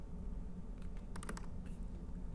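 Faint typing on a computer keyboard: a short burst of a few light, quick key clicks over a steady background hiss.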